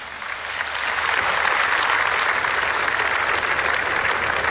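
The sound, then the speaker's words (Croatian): Sustained applause from an audience at an outdoor award ceremony on a town square in Požega, honoring a winning team. Dense, even clapping swells over the first second and then holds at a steady level. “Dajte jedan veliki pljesak za čitavu ovu ekipu.”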